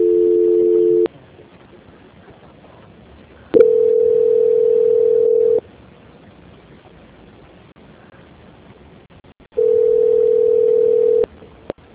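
Telephone dial tone during a call transfer: three long, steady, level tones broken by quiet gaps, the first with a doubled pitch, with no talking.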